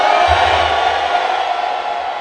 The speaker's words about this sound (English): Can you give Jesus a big shout? Yeah. Hallelujah. I didn't say you should give me a big shout. I said you should give Jesus a big shout.